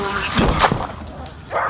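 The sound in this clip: A dog gives a few short, sharp yips and whimpers in quick succession, moderately loud and alone.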